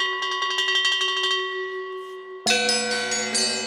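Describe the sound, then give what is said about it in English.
Bells in a metal-only percussion piece that uses more than 125 bells from many cultures and historic periods: a quick run of bright struck bell tones rings on, then a louder cluster strikes together into a sustained, shimmering metallic wash. “The piece is scored exclusively from metals and features more than 125 bells from a wide variety of cultures and historic periods.”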